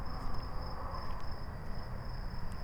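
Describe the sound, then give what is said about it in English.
Crickets and other bugs chirp on an evening by the edge of the woods, a faint, continuous high-pitched trill that never pauses, with a steady insect drone underneath. “Now we're starting to hear some bugs. You know, walk over here to the woods a little bit.”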